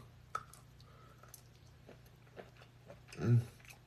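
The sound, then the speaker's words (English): Faint chewing with a few light spoon clicks as someone eats royal and lion's mane mushrooms, one topped with sriracha, using a spoon. The clicks are soft and spaced out, with one louder soft thump near the end. “Yes, I'm eating with a spoon because it's easier for me that way.”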